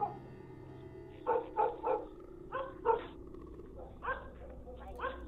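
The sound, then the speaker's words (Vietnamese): A pack of dogs barks loudly in a village: several sharp, tonal barks in uneven bursts, some close together and others spaced apart, over a low steady background hum. “ở bên ngoài kia kỳ lạ, tiếng của bầy chó bỗng nhiên sủa lên inh ỏi ở trong làng.”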